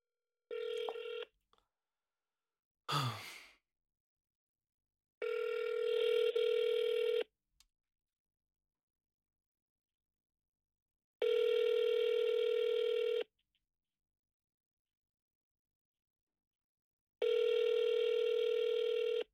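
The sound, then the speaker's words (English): A telephone call being placed: a few short tones, including one quick sweeping tone, then three long, steady ringing tones at even intervals with silence between them. “Oh, God, I dialed the wrong number. I'm so stupid. Okay, I'm dialing.”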